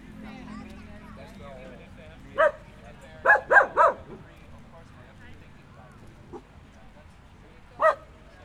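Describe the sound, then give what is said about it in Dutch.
A dog barks five times: one sharp bark, a quick cluster of three, then a single bark after a pause, each short and bright over a low background murmur. “Doe maar, ga maar blaffen.”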